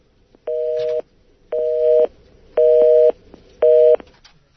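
A dual-tone telephone busy signal sounds while a radio call-in line is being redialed. Four steady, even beeps are separated by short silences.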